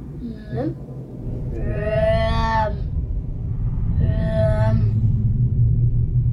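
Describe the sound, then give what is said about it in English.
Crematorium-furnace roar recreated with a fireplace and tubes fanning the flames: a deep, steady rumble with two long, moaning tonal swells rising over it. “That is the sound of the furnaces working overtime to eviscerate evidence of the Nazis' crimes.”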